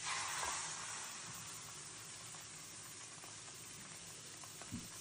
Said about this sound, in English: Some butter in a pan first.